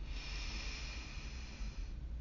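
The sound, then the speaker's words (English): A slow, gentle breath drawn deeply during a relaxation exercise, heard as a soft, steady airy hiss lasting about two seconds, quiet and calm. “take a gentle, calm breath into your entire body.”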